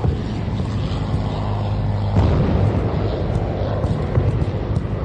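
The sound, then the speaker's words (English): Loud, continuous roaring noise surrounds a Russian Ka-52 Alligator attack helicopter being shot down by a MANPADS missile in the war in Ukraine, with a sudden heavier surge about two seconds in that stays loud to the end. “The moment in which a Russian Ka-52 alligator helicopter was shot down by Ukraine was captured on video, providing a look into one of Russia's most recent losses in the ongoing war.”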